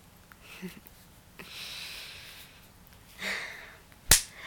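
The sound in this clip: A spanking smack lands as a single sharp, loud slap near the end, after a few soft rustles.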